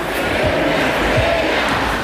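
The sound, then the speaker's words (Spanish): Crowd chanting Cucurella's song at a football title celebration, a dense, continuous roar of many voices with no breaks. “Cucurella, uno de los fijos en las fiestas post-títulos, pidió ayuda al público para cantar su canción.”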